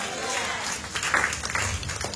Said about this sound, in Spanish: Dale una ofrenda de palmas. ¡Fuertes a nuestro Dios!